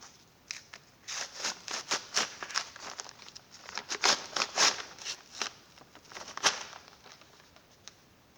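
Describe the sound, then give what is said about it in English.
Two pieces of paper that were stuck together are pulled apart, giving many sharp crinkling and ripping bursts in an irregular rhythm at moderate loudness. “I actually stuck these two pieces of paper together yesterday. Okay? Two who've become one. I just want to show you what happens when you try and separate them.”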